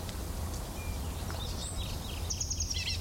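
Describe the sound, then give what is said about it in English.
Bird call notes, a few short, high-pitched chirps scattered through the second half, faint above a steady low background rumble. “Call notes of the same bird.”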